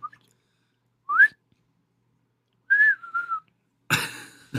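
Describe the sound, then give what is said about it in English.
A voice imitates the sharp, tuneless whistling of an unknown thing heard at night by coon hunters. A few short, high whistled notes come out, the first sliding upward, and a breathy burst follows. “it wasn't like it was whistling a tune. It was just making a sharp, like a”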